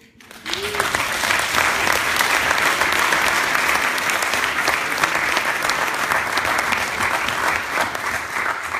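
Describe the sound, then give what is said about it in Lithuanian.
Audience applause at a worship gathering: clapping swells in within the first second and stays loud and sustained for about eight seconds. “visi plojimai, kurie yra plojimai, tebūna, e, tebūna Dievui visą laiką”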